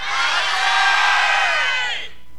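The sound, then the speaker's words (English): A crowd at a church service shouts together on a count of three: one loud, sustained roar of many voices lasting about two seconds, then quickly dropping away. “Now that's the sound of a shout.”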